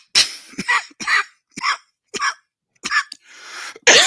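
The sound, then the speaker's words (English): Choking coughs from a person struggling to clear the throat, a rapid series of harsh, raspy bursts separated by brief silences, with a longer wheezy rasp just before a final hard cough. “I'm choking. Man, choking.”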